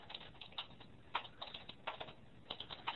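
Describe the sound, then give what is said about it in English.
Someone types on a computer keyboard into a chat window: many quick, light key clicks in an uneven rhythm, faint and alone. “I'm going to type into the chat window.”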